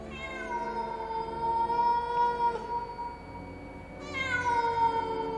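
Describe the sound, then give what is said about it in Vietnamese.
A weak black cat meows, first in one long, drawn-out, wavering cry and then in a second, shorter cry, both fairly faint and heard alone without any talk. “Bất chợt có tiếng mèo kêu khiến cho cả ba người giật mình.”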